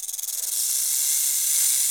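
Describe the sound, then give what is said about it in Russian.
A cobra hisses in a loud, breathy, high rush of air. It opens with a few quick pulsing puffs, then settles into a steady, unbroken hiss. “Часто змеи шипят. Кобры, как и та, что сейчас выступает,”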